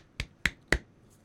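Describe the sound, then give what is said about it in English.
A quiet golf clap: three soft, crisp hand claps at an even pace, each fading quickly, followed by a brief hush. “I was trying not to peek the mic, but then I'm like, that sounded like a golf clap or something.”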